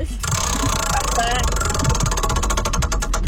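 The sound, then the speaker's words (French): A prize wheel spins, giving a quick run of mechanical ticks that grow distinct and regular toward the end over a steady, dense background din. “On tourne la roue pour toi.”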